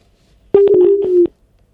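Telephone tones sound on a phone-in line as the next caller is connected: one steady, mid-pitched tone lasting under a second, broken by several sharp clicks, with no talk over it.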